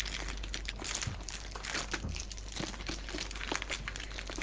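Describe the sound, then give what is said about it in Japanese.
Plastic wrapping and paper crinkle as a new envelope is unwrapped and opened: a continuous, dense rustle of many small crackles at a moderate level. “はい、新しい封筒開けました。ビニールの音、封筒の音ね。”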